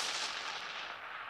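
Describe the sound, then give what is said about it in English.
An explosion sound effect: one broad, rumbling blast that starts at once and slowly fades over about a second. “Yes, that was the sound of an explosion.”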